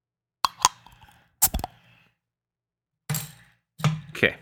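A beer is opened with a few clusters of sharp clicks and clinks separated by silent gaps, quiet and close, with no talk.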